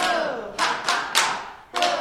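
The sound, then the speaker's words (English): A group claps during a laughter yoga exercise: a few loud, sharp claps come at uneven intervals, each fading quickly, with quieter sound between them. “leading the group through playful exercises like clapping and chanting”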